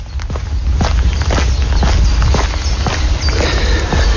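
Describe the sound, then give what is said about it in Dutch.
Footsteps of a person walking through a polder landscape. Many evenly paced steps form a steady rhythm over a loud, continuous low rumbling background. “Dit zijn mijn voetstappen tijdens mijn rondje polder.”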